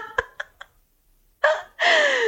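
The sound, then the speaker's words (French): A woman blows air onto herself to dry off: three quick soft clicks come first, then after a pause two breathy gusts of blowing, the second longer and fuller, each with a faint falling tone. “elle est en train de se souffler dessus pour se sécher.”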